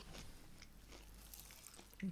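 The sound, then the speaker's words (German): Someone bites and chews a dense, heavy cake close to the microphone, giving faint, moist mouth sounds with soft crunching and a slightly stronger bite just before the end. “Ich glaube, ich äh, werde jetzt mal diesen, diesen Kuchen hier essen. Und zwar bei voller Lautstärke.”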